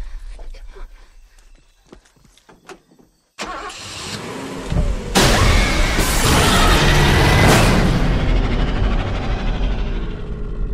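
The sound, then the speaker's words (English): A car engine cranks and fails to start in a trailer for the horror film The Wolfman, heard as a few sharp, sputtering clicks. A sudden loud, sustained roaring swell of dramatic sound follows and holds to the end. “That was a trailer for Lee Winnell's Wolfman. Almost said the Wolfman. The Wolfman. Can we please retire all car scenes that where cars won't start in horror films?”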